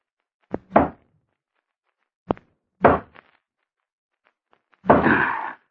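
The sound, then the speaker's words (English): A pickaxe breaking through a wall: a few dull, heavy thuds separated by pauses, ending in a longer, rougher crumbling crash. “hold the flash, kid, while I use a pickaxe.”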